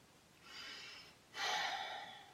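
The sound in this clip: Deep breaths taken during a guided energy meditation: two soft, airy breaths, the second louder and fuller than the first, with no talking.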